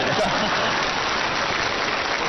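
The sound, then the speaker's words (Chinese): Audience applause at a competition awards event: a dense, even wash of clapping that holds at a constant, fairly loud level for the whole stretch, with no voices standing out. “谢谢大家热情的掌声。哎，当然再热烈一点就更好”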